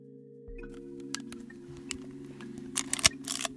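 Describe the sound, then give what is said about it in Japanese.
Handling a film camera: faint mechanical clicks and small rattles over a low, steady hum, with a sharper cluster of clicks near the end. “カメラそうカメラフィルムだけどねフィルムそっか知らないか”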